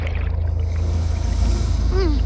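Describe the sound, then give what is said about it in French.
A fishing boat passes near a coral reef, its engine a steady low rumble throughout, with a brief squeaky rising-and-falling chirp near the end. “Oh, c'est pas vrai! C'est encore un de ces bateaux de pêche de malheur!”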